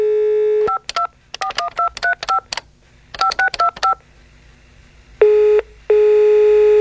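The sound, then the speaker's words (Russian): A telephone number is keyed in as a quick run of touch-tone beeps in two bursts, several short tones each. A steady line tone comes before them, and longer steady tones follow. “В тот вечер я позвонил Барбаре.”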